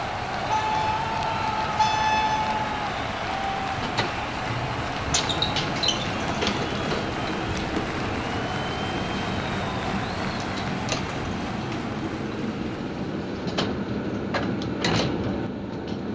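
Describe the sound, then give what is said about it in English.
A fictional elevator sound effect: a steady mechanical rumble runs throughout, with a brief tone near the start and scattered clicks and rattles. “The best metaphor I have to get us there is this specially designed ORR fictional elevator.”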